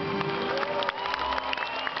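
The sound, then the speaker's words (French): An audience applauds at an awards ceremony with dense, steady clapping that carries on evenly through the whole moment, with a faint crowd murmur mixed in. “Applaudissez-vous.”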